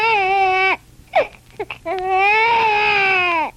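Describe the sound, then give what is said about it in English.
An infant cries loudly in two long, sustained wails, with short gasping sobs in between. “Oh, hush, my baby, hush. Mother's right here. You mustn't cry so loud, someone might hear.”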